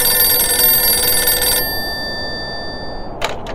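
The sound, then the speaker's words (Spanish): A telephone bell rings at an Antarctic base: one sustained, bright ring that cuts off and slowly fades. A few brief clicks follow near the end. “Silencio, que está sonando el teléfono, amigos.”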